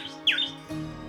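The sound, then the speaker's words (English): A little bird sings a brief, bright chirp with a quick downward sweep, then a softer trailing note over a steady tonal background. “It was a little bird who sang.”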